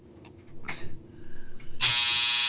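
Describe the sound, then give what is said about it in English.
Clothes dryer end-of-cycle buzzer: after a few faint soft noises, a harsh, steady electronic buzz cuts in abruptly and holds at constant pitch and loudness to the end. “Laundry's done.”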